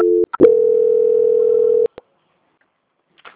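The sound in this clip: A telephone tone sounds as a call is transferred to a quality-control department: a brief tone and a click, then a steady single-pitched tone for about a second and a half. A few clicks follow, then near-silence with a faint rustle at the end.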